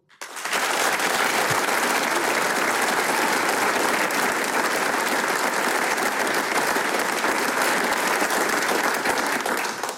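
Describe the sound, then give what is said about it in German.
Enthusiastic applause from the audience in the Arbeiterheimsaal in Vonsdorf at a premiere concert: dense, loud clapping that starts abruptly and holds steady to the end. “Und wie der Arbeiterheimsaal hier in Vonsdorf klingt, wenn er dieses Programm bejubelt, das klingt dann genau so.”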